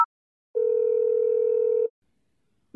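A telephone dial tone heard while a number is dialed to call the police on 110: one clean, steady tone lasting over a second, alone in silence, with brief blips just before and after.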